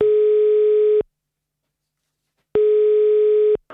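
Telephone line tone while a call is placed: two steady, even tones of about one second each, separated by a longer silence, followed by a short noisy click at the end.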